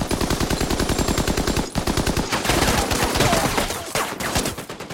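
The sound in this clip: Machine-gun fire and gunshots in a World War II battle on Iwo Jima, a crossfire of rapid, loud, rattling bursts. The shots run almost nonstop with a brief dip partway through.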